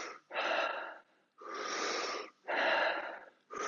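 Rapid, heavy breathing during a breathing exercise: a few forceful, rushing breaths in quick succession, each lasting about a second, with short quiet gaps between them.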